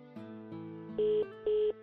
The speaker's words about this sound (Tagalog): Sandali, ako ang tatawag. Hindi makontak? Sandali, try ko pa uli.